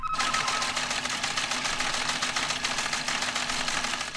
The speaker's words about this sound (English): with a little know-how, you can link them to your receiver so that when the sound of RTTY comes over the air, your converter goes into action and your teleprinter prints out the message like this.